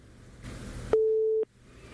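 A telephone busy tone sounds after a caller hangs up: a brief burst of noise, then a steady mid-pitched beep that stops, followed by the start of a second identical beep.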